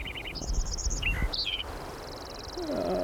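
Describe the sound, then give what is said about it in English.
Sparrow calling in quick bursts of bright, high chirps, several rapid trills crowded into the first second and a half, then fading to a faint high buzz while a lower sound enters near the end. “The good sparrow number 3 continued with the roll-off filter off.”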